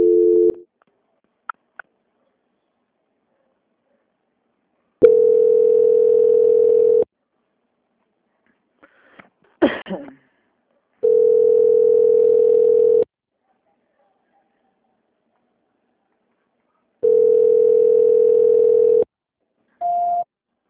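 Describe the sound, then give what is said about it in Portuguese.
A telephone line tone sounds during a call transfer: three steady, mid-pitched tones of about two seconds each, separated by long silences, with short beeps at the start and end and a brief clatter in between. “Eu vou estar transferindo novamente para poder finalizar a ligação com a senhora, tá bom?”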